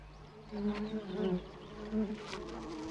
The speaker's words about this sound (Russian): На желтом цветке видит еще одну пчелу.